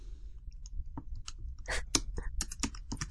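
Keyboard typing while someone composes a tweet: many quick, uneven key clicks in soft bursts, with a low background hum underneath.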